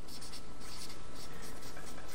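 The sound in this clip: A word is written by hand, with a quick run of short scratching strokes that keeps a steady, busy rhythm.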